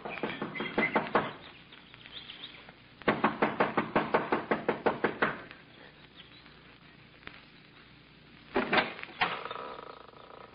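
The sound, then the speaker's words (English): Impatient knocking on the front door of a small mountain lodge comes in a few hurried bursts of sharp, hollow raps, the longest a rapid run of about a dozen knocks, with short pauses between bursts. “runs up the steps of the lodge to the front door. She knocks impatiently, looking about anxiously.”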